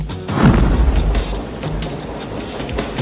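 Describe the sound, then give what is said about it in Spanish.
Incoming 5-inch shells explode in a sound effect from the 1992 film Under Siege. A heavy, loud boom near the start gives way to a sustained low rumble with scattered debris-like crackles. “Están disparándonos. Están desesperados. ¡Colaborad! Solo son cargas de 5 pulgadas. No tienen material para perforarnos.”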